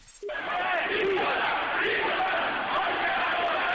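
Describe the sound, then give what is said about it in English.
A large protest crowd roars during clashes with police in Tehran: many voices shout and yell together in a dense, continuous wall of sound. A short sharp burst comes at the very start, then the crowd noise stays loud. “That's the sound of violence in Iran's capital of Tehran over the weekend as police reportedly killed somewhere between 8 and 15 protesters yesterday.”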